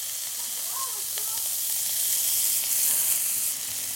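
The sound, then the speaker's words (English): Onions, carrots and peppers sizzle in a pan, a steady, bright frying hiss that runs through the whole stretch and swells a little toward the end, with a faint clink or two of stirring. “So we're letting the onions caramelize a little bit. We're not getting caramelized onions, but we just want to get some caramelization and bring out the natural sugars. The carrots are also sweating down.”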